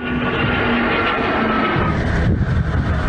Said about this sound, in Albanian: Në fund të ceremonis, dy helikopterët Black Hawk, dronët Bayraktar dhe 6 avionët Eurofighter të ruan mbi qiellin e Kuçovës.